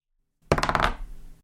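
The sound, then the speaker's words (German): A die rolled onto a surface gives a quick rattling run of sharp clicks and knocks, then settles into a softer, fading tail. “Und damit lasse ich den Würfel mal rollen.”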